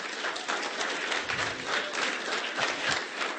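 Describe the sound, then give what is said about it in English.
A round of applause: fairly quiet clapping from a group of hands, with an uneven, pulsing rhythm of swells and dips for about three seconds. “I mean, can we get a round of applause for that, right?”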